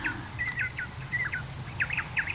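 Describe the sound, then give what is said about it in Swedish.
Grasshopper warbler singing its monotone song, a thin, steady, high insect-like reel running unbroken throughout, with short higher chirps from other birds scattered over it. “Ja, den ena lite entonig faktiskt. Ja, den tog den lätta. Det är bordunsångaren som tar en ton. Det är alltså gräshoppsångaren.”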